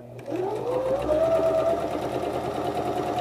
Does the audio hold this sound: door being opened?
no